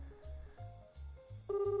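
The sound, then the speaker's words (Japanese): Telephone tones as a call is placed. Faint, short low beeps repeat in a steady on-off pattern, then a firmer, brighter tone begins near the end. “今ちょっとね電話をしますね。”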